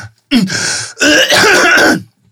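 A person coughs and clears the throat in two rough, raspy bursts: a short one, then a longer, louder one. There is no other talk.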